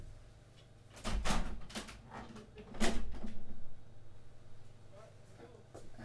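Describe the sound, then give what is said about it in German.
A window being opened in a room: a few sharp clacks and rattling knocks of the handle and frame, the loudest bursts coming early and near the middle, over a low, steady background hum. “Jetzt machen wir mal Fenster auf.”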